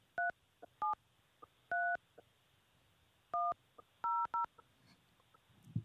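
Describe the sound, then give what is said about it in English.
Telephone keypad tones entering a meeting number and PIN on a call-in host line: a series of sharp, steady two-pitched beeps at irregular spacing, some short and some held longer, with no voices. “Please enter your show or meeting number and press pound. Enter your 6-digit PIN number.”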